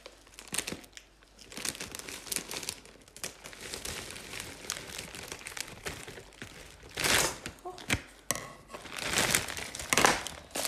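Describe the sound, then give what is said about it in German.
Crinkling and tearing of a sticky plastic package as a corner is cut open, a dense run of crackly rustles that swells louder near the end. “Warum klebt das so? Voll ekelhaft. Ich schneide jetzt erstmal eine Ecke davon auf.”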